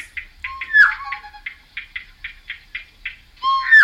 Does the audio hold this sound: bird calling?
yes

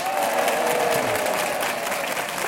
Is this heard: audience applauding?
yes

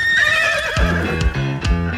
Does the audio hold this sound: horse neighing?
yes

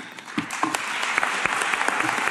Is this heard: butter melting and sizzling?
no

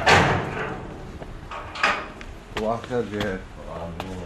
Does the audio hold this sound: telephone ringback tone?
no

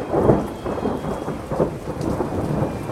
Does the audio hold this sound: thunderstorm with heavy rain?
yes

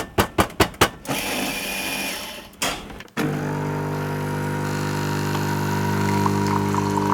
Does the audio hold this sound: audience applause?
no

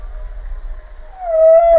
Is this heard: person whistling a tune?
no

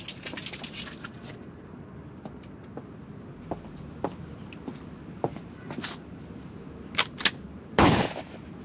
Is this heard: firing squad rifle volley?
yes

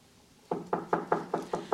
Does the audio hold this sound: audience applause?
no

